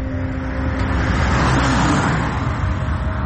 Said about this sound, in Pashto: موټر تیر سو